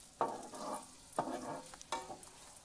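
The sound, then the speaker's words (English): Potato pancakes fry with a steady, hissing sizzle, broken by three sharp crackling bursts at fairly even intervals; the sound is soft and there are no voices. “As you can hear the sizzling going on slightly in the background.”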